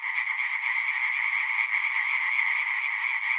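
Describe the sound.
Frogs croak in a steady, dense chorus, a continuous buzzing trill that holds an even pitch and loudness throughout, with no talking.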